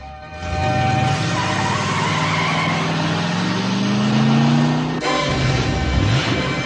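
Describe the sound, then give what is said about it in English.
A car drives off loudly. Its engine note climbs steadily for about four seconds over a broad roar with tire noise, then the sound cuts to a rougher, lower rumble. “Rizzo turns and watches Kinnicky drive off in his car, Greased Lightning.”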